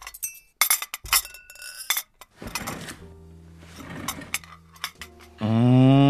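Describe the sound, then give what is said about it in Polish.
Eggplant pasta is served onto plates at dinner, with a few sharp clinks of utensils against dishes and glassware, interspersed with dull thuds and brief pauses. “Siadaj, nakładam makaron.”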